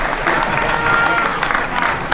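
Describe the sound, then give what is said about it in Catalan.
Audience applause at a town festival evening, called for the vice-president of the festival committee before the decorated-streets contest awards. It is a dense, sustained wash of clapping with crowd noise and holds steady throughout. “aquí demano l'aplaudiment més gran.”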